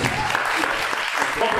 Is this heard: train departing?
no